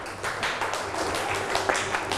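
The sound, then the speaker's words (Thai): Students in a classroom clap for a classmate after an answer about cotton fabric. A short, moderately loud patter of many hands runs evenly for about two seconds. “ปรบมือให้เพื่อนหน่อยลูก”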